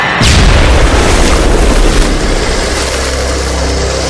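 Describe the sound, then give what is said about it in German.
A hand grenade explodes in a combat scene with a sudden loud boom, then a dense, roaring rumble that fades slowly over about four seconds. “Achtung, Handgranate! Was? 22, 23, Deckung!”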